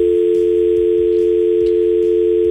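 A telephone dial tone follows a disconnected phone-in call: one steady, loud, unbroken hum with faint ticking underneath.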